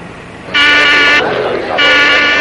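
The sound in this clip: Two loud, steady buzzing tones, each about half a second long and separated by a short gap, from a buzzer pressed to alert a café in a 1973 crime film scene.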